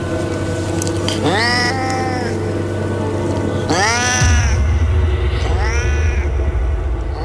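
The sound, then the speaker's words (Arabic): Eerie cat-like meows from a strange creature crawling across the floor out of a room. Three drawn-out, wavering calls stand out over a steady low hum, the middle one the loudest. “الصوت أقرب ما يكون من صوت قطة أو صوت حيوان، لكن الشكل ما كانش كده خالص.”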